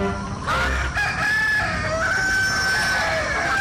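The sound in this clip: A rooster crows, an aggressive Xinghua chicken cock, in one long, loud, drawn-out call with a strained, rising-and-falling harmonic cry and no talk over it.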